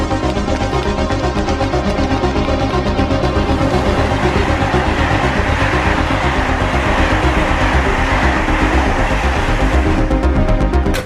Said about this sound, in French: Il y a un train qui va partir là.